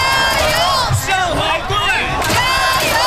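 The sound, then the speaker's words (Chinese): Football fans at the Xujiahui Sports Park viewing site in Shanghai cheering an away match together, a loud crowd of chanting, shouting voices that rises and falls in waves. “听着现场这排山倒海般的加油声，你很难想象这只是一个第二主场。”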